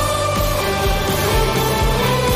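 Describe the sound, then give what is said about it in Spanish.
New theme jingle for a local sports show in the Marina Baixa: upbeat music with a steady, regular beat under sustained tones, played alone at an even loudness. “a la nueva sintonía del deporte en la Marina Baixa, que suena así.”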